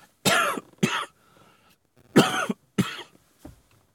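A person coughing: four harsh, loud coughs in two pairs separated by a pause, followed by a faint fifth one at the end.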